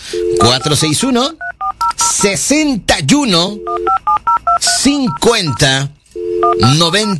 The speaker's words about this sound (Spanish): Que si usted lo que quiere es marcar a la cabina. Ok, ahí es otro boleto. Empezamos con el 461, que es la Lada.